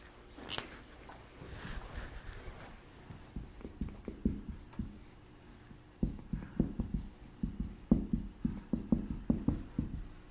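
Writing on a board during a class: many short scratchy strokes in an irregular rhythm, softer at first and growing louder in the second half, with no talk.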